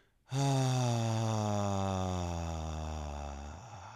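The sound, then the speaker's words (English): A long voiced exhale used in relaxation breathwork: a low, steady, buzzing hum that starts abruptly and holds for about three seconds, easing slightly in loudness before it stops. “when I make that sound on my exhale, I'm telling my body that it can relax from an auditory standpoint”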